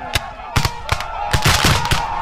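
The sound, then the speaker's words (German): Cannons firing blanks at an American Civil War reenactment make sharp, loud bangs in a quick, irregular series, several cracks landing close together. “And we're shooting out of our cannons, shooting blanks.”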